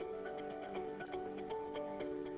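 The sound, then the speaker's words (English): A watch ticks in a steady, quick rhythm for a watch repair service, light, faint clicks running over a soft tonal musical bed. “Have a watch in need of repair? Let Gunderson Certified Watchmaker get things ticking properly.”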